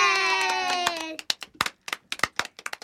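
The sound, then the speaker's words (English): Clapping greets a comedian as he is introduced on a show. A sustained tonal sound comes first, then many separate, sharp hand claps, scattered and irregular rather than a dense roar. “Please put your hands together for Paul Danke.”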